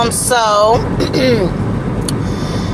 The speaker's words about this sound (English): I'm driving right now, so you're gonna hear a little wind